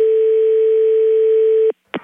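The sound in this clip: A steady, continuous telephone dial tone after a call is hung up. The loud, even hum holds for under two seconds, cuts off abruptly, and a brief burst of tone follows after a short silence.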